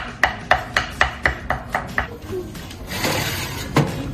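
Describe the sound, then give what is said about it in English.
A knife slices food into thin strips for small toasts with eight crisp, evenly spaced cuts. A shuffling scrape and a single knock follow. “We're just gonna slice these into nice little strips.”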